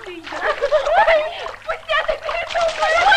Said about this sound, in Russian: Девушки, играя, брызгают друг на друга озерную воду.